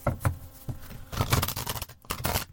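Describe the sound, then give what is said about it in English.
Tarot cards being shuffled: quick, papery riffling and rustling bursts tumble over one another. A brief lull comes near the end before the shuffling resumes. No voices are heard. “That's the sound of your terrible tarot being shuffled.”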